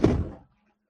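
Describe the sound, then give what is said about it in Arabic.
A drawer shut with a bang: one dull, heavy thunk that fades away within about half a second, followed by silence. “هو ممكن كان قطع لان انا فتحت الدرج وقفلته فخبط.”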